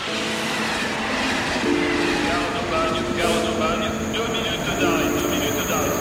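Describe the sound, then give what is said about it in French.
A train arriving at Aubagne station: a continuous loud rumble of rolling wheels and rail clatter, with steady tonal hums and squeals running over it. “notre train vient d'arriver, gare d'Aubagne”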